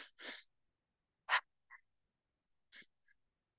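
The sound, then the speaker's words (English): A pulse-breath exercise of two inhales and two exhales: a few short, sharp, breathy puffs separated by long silent pauses, soft and alone with no talk. “And then we will move into the pulse breath, which actually is really good for movement. So that's going to be two inhales and two exhales. And it sounds and looks like this.”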